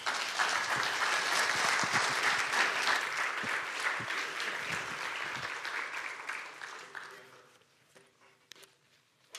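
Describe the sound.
An audience at a Miami Town gathering applauds to welcome a speaker coming forward. Brisk, steady clapping holds for several seconds, then thins out and fades to near quiet.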